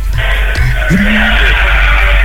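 A motorcycle skids past loudly, its harsh tire squeal and engine noise filling the short burst.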